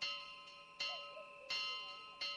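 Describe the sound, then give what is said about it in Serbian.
An alarm bell struck by a night watchman rings out in about four hard, clanging strikes at a steady quick pace, each leaving a bright, sustained metallic ring that overlaps the next. “Mahnito udaranje u alarmno zvono za pomaganje noćnog stražara.”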